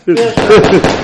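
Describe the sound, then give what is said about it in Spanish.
Firecrackers with a slightly damp fuse crackling and popping near burning paper, a few sharp bursts breaking through a loud voice speaking over them. “Espera, mira, está empezando a arder. ¿Petardos? Petardos, sí.”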